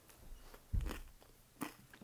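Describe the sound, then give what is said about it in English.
Cheese is bitten and chewed up close for ASMR, with two distinct crunchy bites standing out over quieter chewing and mouth sounds, and no talk. “You have to do, like, cheese ASMR right now.”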